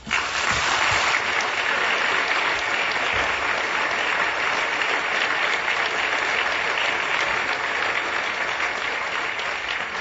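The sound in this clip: An audience welcoming a preacher to the stage with sustained, dense applause. The clapping stays steady and loud for about ten seconds.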